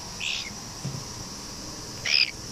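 Soft, gentle calls from a pet bird, a cinnamon, pearl and yellowface mix: two brief, faint chirps, one near the start and one near the end, separated by quiet background hiss.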